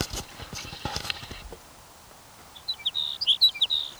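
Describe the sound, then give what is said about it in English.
A sage sparrow sings a short, high-pitched song of quick chirping notes in a rapid, jumbled phrase. It is preceded by a few seconds of soft rustling and tapping. “Your sage sparrow number 5.”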